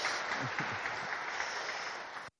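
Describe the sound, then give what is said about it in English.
An audience applauds the Lionesses' European Championship win, clapping densely and steadily before cutting off abruptly near the end. “It was, yeah, you can applaud if you wish to, that's perfectly fine.”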